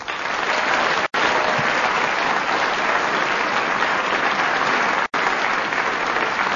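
Studio audience applause greets the panel show teams as they are introduced: dense, steady clapping held at an even level throughout, broken by two very brief cuts.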